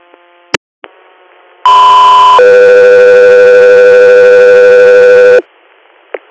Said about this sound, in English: Echo 3 Air, stand by for tones.